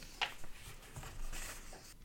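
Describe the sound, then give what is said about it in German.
Faint scratchy strokes of a pen or pencil on paper as someone writes down a quiz answer in kilometres, a few short rough scrapes with quiet gaps between them and no talking. “Ich schreibe es in Kilometern auf.”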